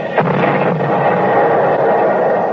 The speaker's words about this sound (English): They just dropped a shell behind themselves.